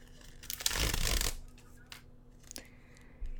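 A sanitary pad wrapper is torn open in one crinkly plastic rip lasting under a second, followed by a few faint rustles.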